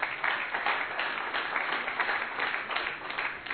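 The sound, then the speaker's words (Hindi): Audience applause, a dense and steady clapping that holds at an even loudness for the whole stretch, with no breaks or voices rising above it. “ताली बजाइए इनके लिए।”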